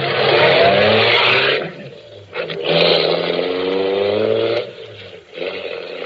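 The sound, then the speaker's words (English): A car being driven back to a garage on an almost empty tank: a loud, steady engine drone with humming tones that dips twice and picks up again each time. “I drove back to the garage.”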